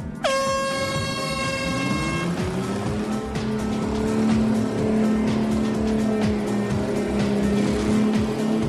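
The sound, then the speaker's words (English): A four-wheel-steering vehicle drives through slime at a messy team challenge. A brief horn-like blast opens, then the engine drone climbs in pitch and holds a steady, loud roar throughout. “The tyres are cutting down through the slime and seem to be keeping their grip. He's got that four-wheel steering working a treat.”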